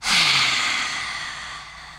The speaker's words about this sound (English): take a big inhale, exhale out the mouth.